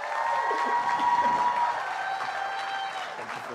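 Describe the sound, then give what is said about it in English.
Audience applause with some cheering welcomes a guest pastor to a church service, a steady, sustained wash of clapping that continues throughout. “So to put your hands together, give him a warm welcome to Pastor Denville.”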